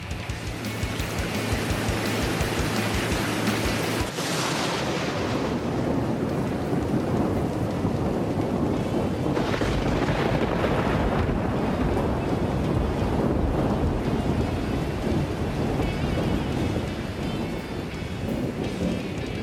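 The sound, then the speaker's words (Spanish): Activated fire sprinklers spray water in a dense, loud, continuous hiss with a rumbling undertone that never lets up. “¡Me estoy mojando! ¡No me gusta el agua! ¡Los peces se están mojando! ¡Corred a salvarlo! ¿Pero qué coño ha pasado? ¡Se han activado los aspersores antiincendios!”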